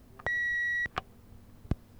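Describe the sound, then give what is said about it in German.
An answering machine's signal tone: one clear, steady high beep lasting about half a second, followed by a couple of faint clicks. “Wenn Sie aber schon eine Nachricht hinterlassen wollen, sprechen Sie bitte nach diesem Signalton.”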